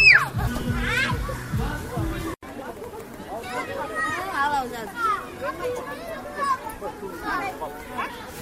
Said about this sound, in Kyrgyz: Балдарды коргоо күнүндө Актоо айылындагы эс алуу паркта балдар ата-энелер көп.